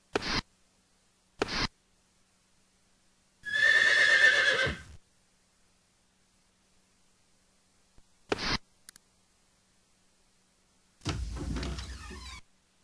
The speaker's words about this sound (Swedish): Det står en häst på verandan till det gamla huset.